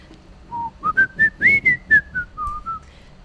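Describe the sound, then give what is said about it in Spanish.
A person whistles a film theme tune alone, a clear, bright melody of about ten short notes that climbs in pitch, then steps back down, each note sharply separated. “me acaba de venir a la cabeza el silbidito de la canción que os iba a contar, a ver si os suena.”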